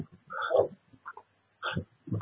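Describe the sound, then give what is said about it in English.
An unhappy, aggressive dog gives a few harsh, low growling barks in separate short bursts with quiet gaps between them, heard alone. “That doesn't sound like a happy dog. I think if he had a chance to get out of there, he'd try to kill everything he sees.”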